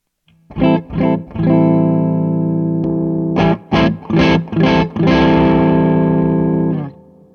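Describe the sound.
Electric guitar through an overdrive pedal at its lowest drive setting, with a mildly gritty, full tone: three chords, the third held, a pause, then four short chord stabs and a final chord ringing out for about two seconds.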